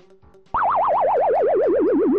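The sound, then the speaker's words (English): Death sound from the arcade video game Donkey Kong Jr. as he falls: a loud electronic tone warbles rapidly while sliding steadily downward in pitch, after a brief faint lead-in. “Long death noise. Get those quarters out. What you heard there is Donkey Kong Jr. just falling to his death.”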